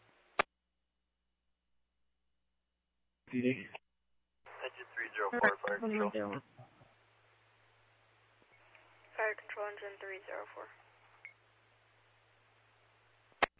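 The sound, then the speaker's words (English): A telephone call being placed, with dialing and ringing: a sharp click, a short burst of tones, then longer stretches of tonal, warbling sound over a low steady hum, ending with another click. “Advisor, I'll call her right now.”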